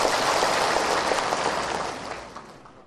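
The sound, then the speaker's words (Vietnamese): Audience applause at a Buddhist dharma program, a dense, steady clatter of many clapping hands that slowly fades toward the end, with no voices. “xin quý vị chúng ta cho thêm một tràng pháo tay nữa để khích lệ tinh thần cho cô.”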